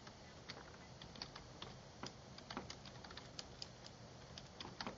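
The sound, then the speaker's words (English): Quick clicking of a computer keyboard as a search query is typed into a web search engine, many light key taps in an uneven rhythm, fairly quiet over a steady hiss, with no voices. “So if we go to Google and we type in”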